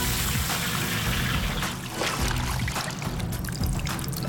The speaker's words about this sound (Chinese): 煎油烧开，倒入茶叶汁